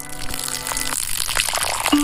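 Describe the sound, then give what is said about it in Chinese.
Boiling water is poured over cooled plant ash to draw out its alkali, making a steady rushing, splashing gush that keeps an even level throughout. “它冷却以后用开水冲，香味跟碱分可以全部激发出来。”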